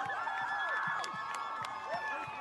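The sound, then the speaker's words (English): Yale students cheer and whoop as an American flag is lowered. Shrill whistles and whoops swoop up and down over a steady crowd murmur, fairly faint throughout. “They're chanting Viva, Viva Palestina, and then they're cheering as the American flag comes down.”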